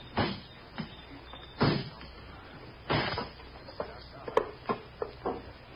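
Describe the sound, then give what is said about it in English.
The lock of an iron box is broken open with a few heavy knocks, then a quicker run of lighter, sharper strikes, all faint. “Box, an iron box. Sergeant, break the lock.”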